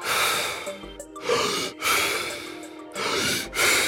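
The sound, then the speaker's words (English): Deep, fast breaths of a breathing exercise that is paired with cold exposure: a few loud, airy inhale and exhale cycles in quick succession, rushing and breathy, with no talking. “the breathing is essentially, 30 deep, fast breaths. It sounds a little bit like this, like...”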